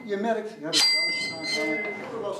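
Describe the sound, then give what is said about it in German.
A bell note from an old carillon in a church tower rings over ongoing talk: one bright struck tone that sustains with a high metallic shimmer while people keep speaking. “Die alten Glockenspiele. Ja, ich probiere.”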